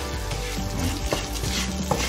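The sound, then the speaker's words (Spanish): Sizzling and stirring as round white rice is mixed with toasted vegetables in a pan: a steady frying hiss broken by soft scraping stir strokes, with no voices. “Vamos al arroz y le vamos a remover un poquito con la verdura esta tosadita de arroz blanco, el redondo este,”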